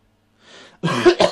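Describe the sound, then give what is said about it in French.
A man coughing: a faint breathy intake, then two harsh, loud cough bursts in quick succession, the second slightly sharper, with nothing else around them. “Par moi qui tousse, bien sûr.”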